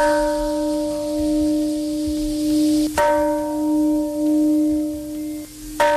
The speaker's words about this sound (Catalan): Campana de pau a Hiroshima. Com cada 6 d'agost ha començat el toc solemne a l'hora exacta en què els Estats Units van llançar sobre aquesta ciutat japonesa la primera bomba atòmica.